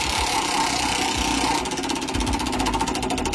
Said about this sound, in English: Let's spin the wheel first time.